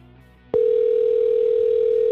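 Telephone tone on a call being placed: after half a second of low hum, one steady, loud pitched tone starts abruptly and holds unchanged to the end.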